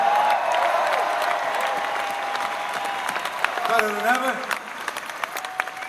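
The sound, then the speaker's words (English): Applause for a band at the end of a concert, a dense, steady wash of clapping and crowd noise with voices and a sustained tone running through it. “Please, a great round of applause for Idlewild,”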